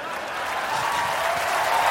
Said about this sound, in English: what was happening that made all those people applaud in that moment?